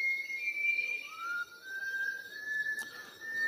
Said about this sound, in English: But it's a bird for sure. It's some variety of whistling thrush.